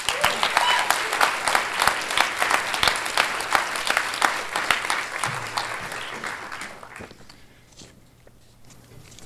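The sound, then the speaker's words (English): Audience applause welcomes actor Tim Simons at the LA Times Festival of Books: loud, dense clapping holds for about six seconds, then thins out and fades toward quiet. “Uh, please give a warm Festival of Books welcome to Tim Simons.”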